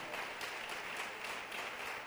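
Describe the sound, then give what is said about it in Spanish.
An audience applauds during a church worship service: dense, steady clapping that holds at an even level throughout, with no clear voices on top. “Démosle un aplauso al Señor en este día.”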